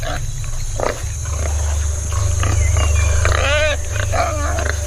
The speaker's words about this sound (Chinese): 是几只野猪幼崽，看起来似乎是不错的目标。他们跟随妈妈正在觅食。